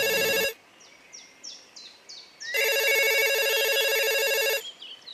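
A telephone ringing in two loud bursts of bright, bell-like electronic tone, the first short and the second about two seconds long, separated by a run of short, descending chirps.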